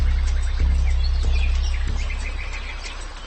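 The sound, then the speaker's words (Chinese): Kingfisher calling by the water, sending many thin, high chirps and short trills over a steady low rumble. No voices are heard. “在喜欢享用水生食物的动物中，翠鸟是突出的一位，它们会在水边的高处筑巢，居高临下。”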